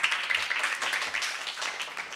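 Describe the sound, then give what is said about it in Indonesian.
Applause from a church audience clapping for Jesus, a dense, steady patter of many hands that stays fairly faint throughout. “Mana tepuk tangannya? Lebih dahsyat lagi tepuk tangannya buat Tuhan Yesus.”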